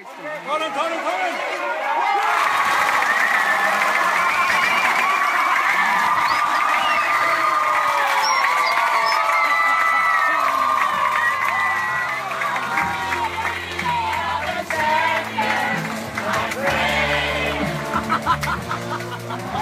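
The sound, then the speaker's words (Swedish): Crowd cheering in the stands at the final out of a deciding championship game: a roar swells in over the first seconds, then sustained loud cheering, whistles and shouts carry on. “Vi kan ju lyssna lite på hur det lät på läktaren där under The Final Out.”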